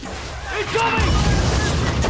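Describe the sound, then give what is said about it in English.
A rocket fired at a military convoy on a road, a sudden heavy boom just before one second followed by a sustained low rumble, with brief voices around it. “A rocket is fired at the convoy.”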